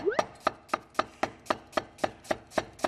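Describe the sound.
A knife chops onion into medium-thick pieces for a stir-fry, striking the board eleven times in a steady, evenly spaced rhythm. The sharp, crisp chops sound alone, with no talk.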